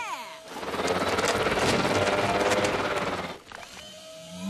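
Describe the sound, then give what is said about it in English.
A really big mixer churns giant cookie dough, a loud mechanical whirring roar that starts abruptly, runs steadily for about three seconds, then cuts off. “Did somebody call for a really big mixer?”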